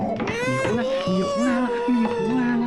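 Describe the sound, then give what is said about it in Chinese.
A baby cries in a continuous, wavering high-pitched wail that rises and falls, while an adult talks over it at the same time. “怎么哭了？ 刚才还好好的呢，突然就哭起来了。”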